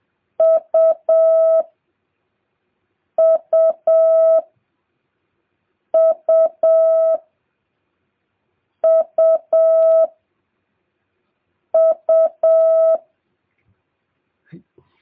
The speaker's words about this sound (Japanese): それではトトツーが U です。トトツーが U、 5回打ちます。書き取ってください。